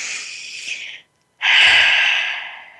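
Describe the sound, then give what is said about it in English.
A deep breath: a long, airy inhale, a brief silent pause, then a louder, sustained exhale that slowly fades. “Let's breathe together one more time.”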